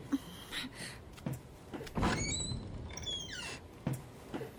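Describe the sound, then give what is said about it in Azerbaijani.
A door being opened: faint clicks and thumps of handling, with thin high squeaks partway through, all fairly quiet. “mən qapını açaram”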